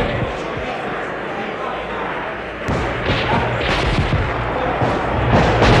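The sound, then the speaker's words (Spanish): Gunfire from people shooting close by in a street fight, a dense, continuous clatter of shots and crashes that grows louder past the midpoint, with voices mixed in. “Se están disparando allí mismo.”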